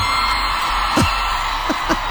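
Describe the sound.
A stadium crowd of about 90,000 screams and yells in a dense, unbroken roar, with a few sharp whoops standing out above the mass of voices.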